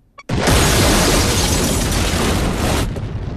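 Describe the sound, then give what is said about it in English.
The ship Lewis and Clark explodes and is blown to pieces: a faint click, then a sudden, very loud, roaring blast that holds at full force for over two seconds before beginning to thin out. “Miller looks out to see the Lewis and Clark being blown to pieces.”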